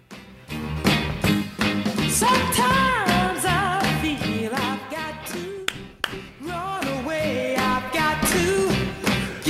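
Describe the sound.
A 1964 original recording of a song, sung by a female lead vocalist, plays loudly and continuously, with melodic vocal lines over a steady, busy rhythm of percussion and backing instruments.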